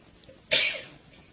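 A single sharp, loud sneeze bursts out alone against a quiet background and fades within a fraction of a second.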